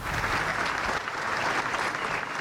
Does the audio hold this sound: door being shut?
no